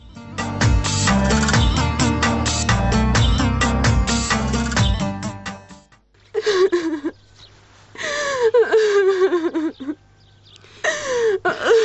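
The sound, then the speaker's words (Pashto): A girl cries and sobs in several wavering, whimpering bursts with gasping breaths between them, following a dense, loud opening passage. “بس ته نوره مه ژاړه نه ژاړه څه نه جوړېږي”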